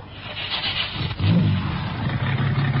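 A white convertible car's engine starts: a softer churning at first, then the engine catches midway and settles into a loud, steady low hum.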